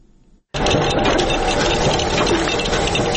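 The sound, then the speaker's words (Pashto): Two machines in a century-old state printing house in Nangarhar, one printing and one cutting paper, start abruptly after a brief quiet and run in a loud, steady, rapid mechanical clatter. “دا د سلکلنی دولتي مطبعې له نهو څخه یوازې د دوه ماشینونو غږ دی چې یوې چاپ کوي او بلې کاغذونه پرې کوي.”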